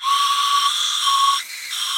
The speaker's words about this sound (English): So this is the first flint whistle. Yeah. It's a tube with some holes.